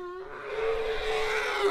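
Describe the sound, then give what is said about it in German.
Loud trumpeting from a small herd of orphaned elephants arriving for feeding at an elephant orphanage in Kenya: a brief harmonic note, then a long, rough, sustained brassy blare. “Mit lauten Trompeten kommt die kleine Elefantenherde zur Fütterung.”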